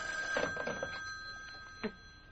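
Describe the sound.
A telephone rings with a thin, steady, high electronic tone that is quiet and continuous, with a few faint soft knocks beneath it.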